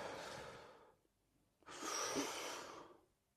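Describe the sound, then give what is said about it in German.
Deep diaphragm breathing: two long, soft, airy breaths separated by a short pause, the second slightly louder and longer. “Du atmest tief ein, ins Zwerchfell, einmal wieder aus und dann wieder ein.”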